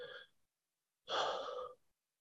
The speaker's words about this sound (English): I'm going to take another breath. It'd be great if you join me.